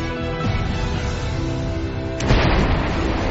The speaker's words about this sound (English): Oh, big eruption. Noisy eruption.